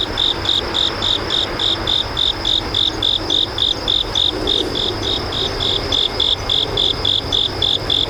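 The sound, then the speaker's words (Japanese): Crickets chirp in a September woodland of mixed trees at sunset, a steady, evenly spaced train of many high, bright pulses that repeats without a break over a soft background hiss. “ベンチに座って一休みしていると、秋を感じさせる虫の声が聞こえてきました。コオロギです。”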